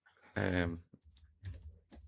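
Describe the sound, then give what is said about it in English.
Typing on a computer keyboard: a few sparse, sharp key clicks follow a short burst of voice, with quiet gaps between the taps. “I'm just typing something in here.”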